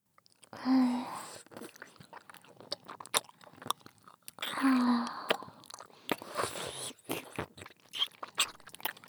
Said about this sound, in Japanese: 棒付きキャンディーだよ。 まだわかりませんか？まあ見てればわかりますよ。 はい、じゃあいただきます。